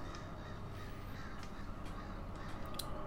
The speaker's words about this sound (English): Also, just the occasional vulture or crow will just land in your pathway as you ride past.